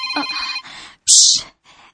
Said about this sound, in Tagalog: Ang imong cellphone.